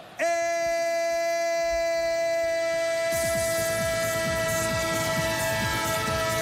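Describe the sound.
Train sound effect: a sustained, loud multi-tone horn chord holds steady through the whole clip, with rumbling, rhythmic clatter building underneath from about halfway. No talking.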